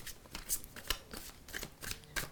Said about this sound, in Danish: Nu vil jeg trække et kort for U21, eller ikke kun et kort. Jeg vil trække flere kort for, hvad ugen bringer os.